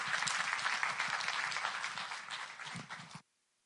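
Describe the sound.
Congregation claps to welcome a speaker to the front, a dense, even patter that eases slightly before cutting off abruptly, leaving silence.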